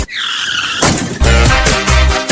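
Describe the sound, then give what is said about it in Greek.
Motorcycle engines revved to full throttle: a sustained high whine, then loud, harsh roaring with a pulsing, repeated surge. “Στη μηχανή ανέβα. Και έχουμε φουλάρι τις μηχανές.”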